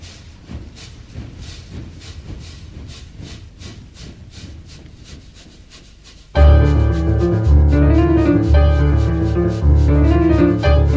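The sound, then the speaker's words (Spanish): Rhythmic scraping chugs imitate a steam locomotive for a children's train song: about six seconds of steady, brushy pulses, then a loud band of music with bass and melody comes in abruptly and carries on to the end. “Empezamos con la maquinita. Chuchu. Ahí viene el tren”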